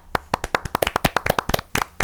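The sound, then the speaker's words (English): Hand clapping as applause, many sharp, crisp claps in a quick, slightly uneven run lasting the whole stretch, with no voices. “thank you. You can keep the applause coming.”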